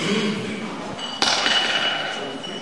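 A glass bottle clinks once during a council meeting: a single sharp, bright knock rises out of a steady background hiss and hum, then fades quickly.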